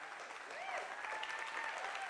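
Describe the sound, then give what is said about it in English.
Dense, steady applause from a church audience, with men among those clapping, sustained at an even level for the whole stretch without pauses. “I'm looking for all the men that are clapping.”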